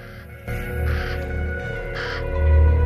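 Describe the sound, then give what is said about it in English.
Black-feathered birds on a caravan roof in a crater full of old cars and vans give two harsh, raspy caws over a steady low rumble. “A pair of black feathered birds strut back and forth on the roof of a caravan.”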